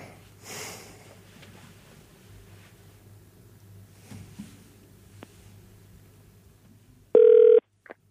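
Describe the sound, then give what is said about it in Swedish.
A telephone ringing tone as a call is placed, arriving near the end as one loud, steady electronic tone with a short second burst just after it, following a long stretch of faint, low background hum. “Vi tar och slår Patrik en signal, så vi ser vart han håller hus just nu mitt i kaoset.”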